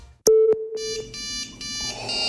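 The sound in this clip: Electronic ringing tone of an incoming video call: a sharp beep followed by layered, sustained bright electronic tones that continue to the end.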